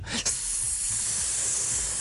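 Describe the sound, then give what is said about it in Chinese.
A snake hisses in a steady, breathy stream, moderately loud and unbroken for about two seconds after a brief rough burst at the start. “冇龙啊，但系有蛇啊！”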